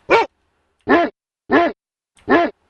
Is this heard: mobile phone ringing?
no